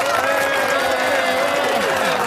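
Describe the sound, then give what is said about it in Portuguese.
Applause sound effect: dense, steady clapping that fills the whole clip at an even, fairly loud level without a clear rise or fade. “Você viu que agora funcionou nas suas palmas.”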